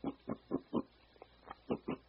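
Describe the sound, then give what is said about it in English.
A human voice imitating pigs grunting: many short, low, throaty grunts in a steady rhythm, with one fainter grunt and a brief gap midway before the rhythm resumes. “we also heard the sounds of like pigs grunting,”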